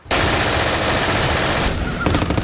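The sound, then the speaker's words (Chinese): Intense gunfire from various weapons as German troops fire down from clifftops at a seaborne assault: a loud, continuous rattle of rapid machine-gun bursts that breaks into a few separate, sharper shots at the end. “德国人从峭壁上面冒出来，用各种武器朝我们射击。”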